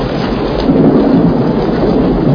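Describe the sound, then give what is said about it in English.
Steady, loud rain pours continuously, with a deep rumble of thunder running underneath it throughout. No voices are heard. “it's raining. I know it's raining.”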